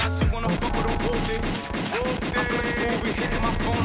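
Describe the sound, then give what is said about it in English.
Rapid gunfire sound effect: a dense, loud burst of shots firing in quick succession, with sharp cracks repeating throughout the whole clip. “Let that motherfucking gun go off.”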